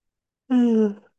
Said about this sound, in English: My yawns are starting as always.